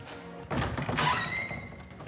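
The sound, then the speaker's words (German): A door to an upstairs exhibition room is opened: a dull thunk, then a broader rustling sweep with a thin high tone drawn out over about a second before it settles into low background noise. “Jetzt öffne ich mal die Tür zu unserem Ausstellungsraum.”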